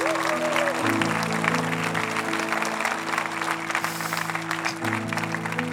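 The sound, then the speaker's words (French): A church audience gives a warm ovation during a service, clapping in a steady, dense, moderately loud patter for several seconds. “Non, il faut vous lui donner une bonne ovation ce matin.”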